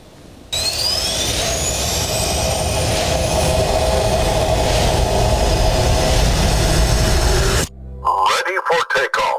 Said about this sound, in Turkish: Türkiye'nin gurur projelerinden biri olan Hürjet gökyüzünde böyle süzüldü.